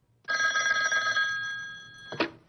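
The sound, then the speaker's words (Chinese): An old telephone bell rings on a desk in one continuous, loud metallic trill of about two seconds. It stops abruptly with a short clatter. “燕刚答应一声就要去布置，可谁知他还没走出屋子，桌子上的电话又响了。”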